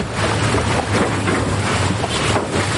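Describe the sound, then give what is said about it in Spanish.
A boat's engine rumbles steadily as it approaches a barge on the water. Wind noise and water wash run throughout with no talk. “El barco de Max se acerca a la barcaza de Jean-Louis.”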